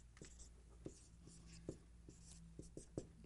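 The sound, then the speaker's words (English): A pen writes quietly during a sermon, making many short scratching strokes and light taps in an irregular but steady rhythm. “Excuse my writing, I'm getting pretty excited here.”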